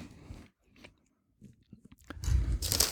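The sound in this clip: Crunching of tomato-basil potato chips made with organic potatoes and sunflower oil: a few soft bites at first, then a loud, dense burst of crunchy chewing at the end.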